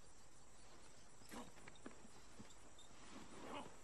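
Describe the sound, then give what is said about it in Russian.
Hooves of a horse pulling a plough thud faintly in a few slow, soft steps at early morning, under a quiet steady hiss. “Марти просыпается и резко садится в кровати, напуганная ржанием лошади. Смотрит в окно и видит, как Кларк идет за плугом лошади.”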